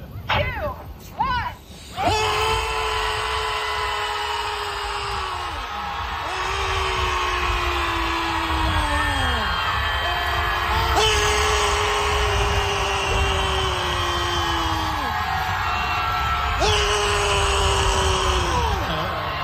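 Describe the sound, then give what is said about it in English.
Around 100 people screaming together at the top of their lungs at the Pacific Ocean in San Francisco. A few brief voices come first, then a loud, sustained roar of overlapping screams that swells and dips in waves. “here is the sound of 100 San Franciscans screaming at the top of their lungs together.”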